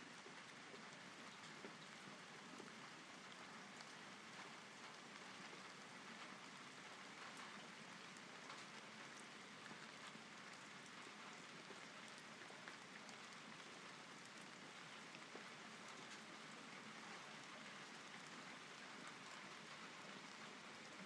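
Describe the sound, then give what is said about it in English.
Steady rain falls in a continuous, even hiss with no clear breaks or changes in loudness throughout, and no voices are heard. “As you may be able to hear, it's raining.”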